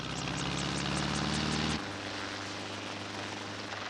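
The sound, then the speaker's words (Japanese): Helicopters of an attack squad take off in an animated action scene, a loud rotor drone with a rhythmic pulsing beat that cuts off abruptly partway through, leaving a lower, steadier engine hum. “ヘリコプター部隊出動。”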